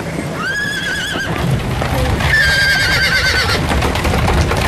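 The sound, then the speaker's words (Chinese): A horse whinnies twice in high, wavering calls over a steady clip-clop of hooves as a horse-drawn carriage trots away from a railway station. “高君曼带着两个孩子上了马车，马车在离开北站之后一路小跑，跑入法租界霞飞路”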